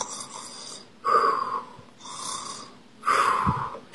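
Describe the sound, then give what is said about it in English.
A voice imitates a monster's snoring in a trick-or-treating rhyme, with four drawn-out snores alternating between rough, throaty snorts and softer, airy breaths in a slow, even rhythm, loud and without words. “Then one monster starts to snore.”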